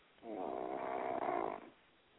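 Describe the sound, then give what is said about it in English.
A person snoring: one long, low, rasping buzz that swells in and holds for about a second and a half before cutting off, fairly quiet, with no voices during it. “Is somebody snoring? What the hell was that? Get up out of here. Somebody's snoring.”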